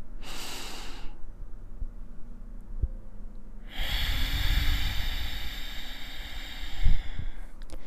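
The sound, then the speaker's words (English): Deep breathing during a yoga lesson: a short airy rush of breath, a quiet pause, then a longer, louder breathy sound of air that lasts to the end, with no talk. “Take a deep inhalation and exhale.”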